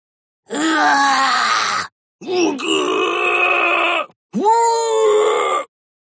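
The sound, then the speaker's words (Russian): Three agonized, trembling screams ring out from a granite gorge and echo off its walls. Each is a loud, wavering cry of about a second and a half, separated by short pauses. “Мученические, дрожащие крики донеслись из ущелья, ледяным эхом отразившись от безразличных гранитных стен.”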